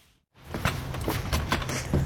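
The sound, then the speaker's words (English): A locked door into a basement being opened: a few soft knocks and clicks over steady rustling handling noise, which begins abruptly after a brief near-silence. “Maggie O'Farrell is taking me through a locked door into the basement where, for now, she's keeping her new awards.”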